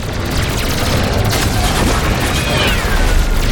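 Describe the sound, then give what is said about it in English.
Space battle in a video game as allied fighter ships fire on enemy fighters and blow apart, a loud, dense barrage of booming blasts and rapid gunfire that rumbles on without a break. “And it's doing that thing where initially, like, everyone explodes because there's so many people shooting.”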